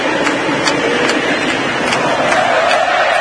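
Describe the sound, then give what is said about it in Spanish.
Roar of a football stadium crowd while the match is halted, a dense, steady wash of many voices without distinct chants or peaks, loud and continuous throughout. “Escuchen el público.”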